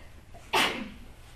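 One short, sharp sneeze bursts out against faint background noise and trails off quickly.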